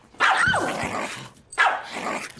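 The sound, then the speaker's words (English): A Yorkshire Terrier gives two sharp, high, yappy barks, each trailing into a short growling tail, with a brief pause between them. “Oh! Look, you have a dog! He lifts the Yorkshire Terrier.”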